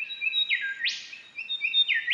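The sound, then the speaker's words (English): Golden Whistler song rings out in clear whistled phrases, each ending in a sharp upward sweep. Two similar phrases follow one another across a couple of seconds, bright and fairly faint against a quiet background. “You'll hear one bird sing, and then somewhere else you'll hear another bird singing back.”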